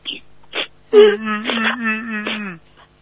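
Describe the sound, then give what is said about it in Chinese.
A person cries in a wavering, moaning wail that is preceded by a couple of short sobbing breaths and tails off at the end. “好了，哭什么？有这么好哭的？”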